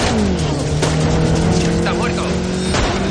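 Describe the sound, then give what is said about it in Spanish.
A car speeding off to escape during a shootout in a thriller film: a loud, sustained engine roar with a steady low drone that holds throughout the stretch. “Taylor arranca para escapar. Javier corre hacia el coche y Thomas le dispara.”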